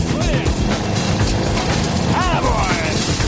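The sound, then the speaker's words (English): Steady, heavy rumbling from an old curb crawler machine at work, loud and continuous throughout with a dense low-end roar and rough mechanical texture. “The old curb crawler's steadily rumbling on.”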